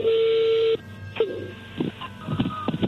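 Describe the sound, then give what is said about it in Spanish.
An incoming telephone call connecting on air: a steady tone lasting under a second cuts off, followed by a few clicks and scattered line noise. “Ahí entró la llamada, contéstale tú”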